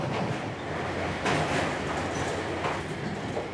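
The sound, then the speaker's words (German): A 1960s railcar running on a line that slowly climbs, heard as a steady, fairly faint rumble of wheels on track with a few soft rhythmic clacks. No voices. “Der Triebwagen atmet den Charme der 60er Jahre.”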